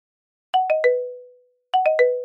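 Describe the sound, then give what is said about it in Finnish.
A school bell chime sounding at recess's end, heard as two identical groups of three clear descending tones, with each note ringing and decaying in a bright, musical pattern. “Kellot soivat kutsuen oppilaat sisään välitunnilta.”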